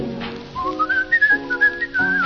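A person whistles a tune: a clear, high, bright line stepping between a few held notes over sustained instrumental accompaniment.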